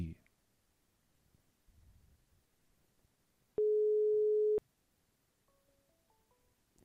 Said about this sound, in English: Okay, let's do a little test call real quick. Make sure it's the right number. I'm going to call my other number, and we can see the caller ID.